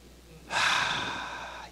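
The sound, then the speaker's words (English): An audience at a lecture takes a deep breath, heard as one long, soft, airy inhalation that begins after a short pause and slowly tapers. “So, everybody take a deep breath.”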